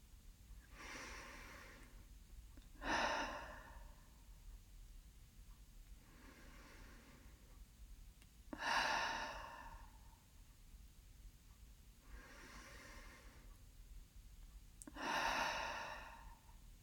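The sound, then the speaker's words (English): Three slow, deep breaths are taken with eyes closed during a guided relaxation exercise. Each begins with a soft, airy inhale and ends with a louder, breathy exhale, all faint and evenly spaced with quiet pauses between. “Keeping your eyes closed, let's take another 3 deep breaths together.”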